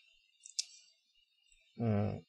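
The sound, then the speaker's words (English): Figures being typed into a calculator: a few faint, sharp key clicks close together, followed by a pause before a voice begins talking. “so we got choice of miles per hour, so we can type in what we've got there on the calculator.”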